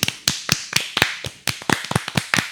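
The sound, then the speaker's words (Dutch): A few people clap their hands to applaud their listeners, with many sharp, crisp claps at an uneven pace. There is no talking. “Ik vind dat we even moeten applaudisseren voor ze.”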